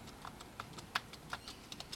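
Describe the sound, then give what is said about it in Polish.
Typing on a computer keyboard into a text editor: faint, irregular key clicks, several separate taps spaced unevenly across the moment, with no voices. “Ja na przykład mam edytor tekstu. Wchodzę w edytor tekstu i piszę tak.”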